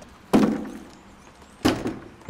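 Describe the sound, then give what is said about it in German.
A heavy self-closing door at a memorial exhibition building is pushed open with effort, giving two loud, dull wooden thuds about a second apart, each fading into a short low rumble. “Ist ein bisschen schwierig, die Tür aufzukriegen, aber geht. Also es ist eine schwergängige Tür. Das liegt halt daran, dass sie sich von selber wieder schließen soll.”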